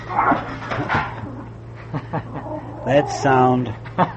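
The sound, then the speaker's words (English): A dog growls and whimpers while tearing up delivered mail, with short rough yips and snarls that end in a higher, drawn-out whine. “That sound was not skeletons, but the mail being delivered, and Happy tearing up all the checks.”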